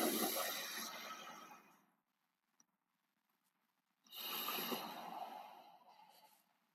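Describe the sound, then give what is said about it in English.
Slow, deep breathing in a breathing exercise: two long, airy breaths that each swell and then taper off, separated by a pause of near silence. “Ready, set, breathe. Go.”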